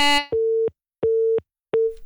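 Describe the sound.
A telephone busy tone sounds after a caller's line drops: three evenly spaced, steady mid-pitched beeps, each lasting about a third of a second with silent gaps between them, clear and alone.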